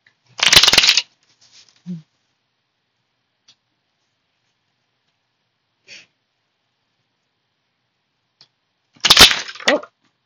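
Oracle cards being shuffled by hand, with two loud, papery riffling bursts at the start and end and a few faint soft taps between them; no talking.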